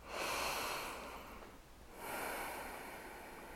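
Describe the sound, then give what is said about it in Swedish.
Two slow, deep breaths, each a long, airy rush of air with a pause between them, quiet and alone. “Ta några djupa andetag.”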